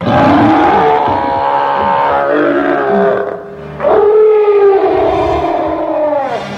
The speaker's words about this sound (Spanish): detrás de la puerta cerrada había un gorila furioso